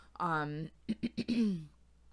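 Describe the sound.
A person clears their throat while herbs are burning nearby. A drawn-out, voiced rasp is followed by a few quick, short throaty bursts, faint and alone.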